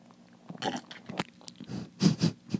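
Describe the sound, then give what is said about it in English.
Sipping and swallowing of someone drinking a white mocha soy latte: a run of short, wet mouth and gulping noises in uneven bursts, fairly quiet, with no talking. “Okay, guys, so she's gonna drink this for you.”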